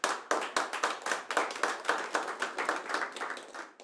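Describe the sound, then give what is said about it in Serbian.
Audience applause at a tavern-style music show, steady rhythmic clapping with sharp, evenly spaced hand claps at a quick tempo, moderately quiet and continuing throughout with no voices. “Još jedan veliki aplauz, ljudi!”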